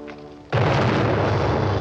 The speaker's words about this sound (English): A man is riding his white horse past a craggy rock face when suddenly an explosion rips through the rock.